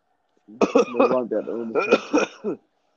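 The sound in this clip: A few harsh throat clearings and rough coughs from someone with something stuck in the back of the throat, in short bursts with no other sound.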